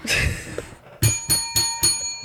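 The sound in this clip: A bell rings with a bright, sustained tone, then gives four sharp, evenly spaced rings in quick succession, clear and fairly loud with no talk over it.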